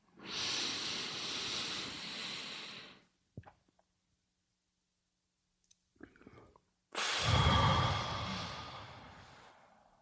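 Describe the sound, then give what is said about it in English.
A deep breath is taken close into the microphone: a long, airy inhale, then a pause broken by faint clicks, then a loud, breathy exhale that slowly fades. “Okay, I'm going to unfill my lungs. One deep breath.”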